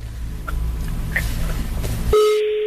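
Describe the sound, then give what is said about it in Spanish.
A telephone number being dialed: a few faint short beeps over a low rumbling background, then a loud, steady electronic tone starts near the end and holds on its own. “Que estoy marcando el número que traigo de cosas del Metrobús”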